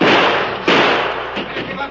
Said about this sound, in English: If it's Duke's card, I've got some shooting to do.